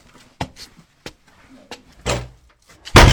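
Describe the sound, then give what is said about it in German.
A cellar room door being closed and locked in an old building, with a few sharp knocks and latch clicks spaced apart. A louder, heavier thud comes at the end. “Ja, so schließt man einen Kellerraum ab.”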